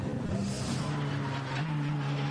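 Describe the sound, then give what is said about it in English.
A Dacia Logan car driving on a very slippery race circuit gives a steady, continuous engine drone that holds for the whole stretch with no talk over it. “the Dacia Logan is out on circuit at the moment. Yeah, just coming down towards Brunschen.”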